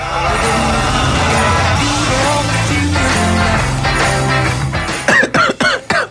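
A quick run of several sharp, loud coughs at the very end, following a stretch of dense, busy sound.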